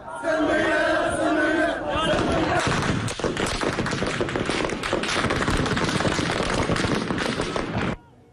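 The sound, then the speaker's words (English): Crowd chanting breaks into chaotic gunfire as security forces armed with American weapons shoot at anti-government protesters. Many sharp cracks punch through loud, continuous shouting and screaming until it stops abruptly near the end. “Anti-government protesters being shot by American armed security forces.”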